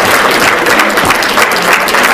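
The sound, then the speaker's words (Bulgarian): Audience applause for a school honored at an award ceremony for an Erasmus mobility project. Dense, loud, even clapping from many hands continues steadily throughout without pauses. “Заповядайте, аплодисменти за 88-мо училище.”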